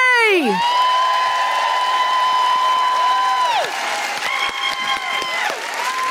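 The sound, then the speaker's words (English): Audience applause and whoops welcoming a stand-up comedian on stage at a comedy show, steady crowd clapping running beneath loud sustained tones that slide and shift in pitch. “Please put your hands together and welcome to the microphone, the incredible Julie J!”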